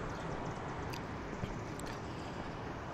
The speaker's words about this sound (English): What you're hearing is the AC compressor to my left.